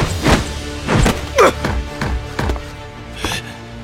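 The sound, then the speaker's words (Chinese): Dull thuds of a fist striking an open palm in a fight, sounding as a series of heavy, irregularly spaced impacts, some with a short ringing tail. “戴沐白右拳自下而上迎上了对方手掌，砰的一声闷响”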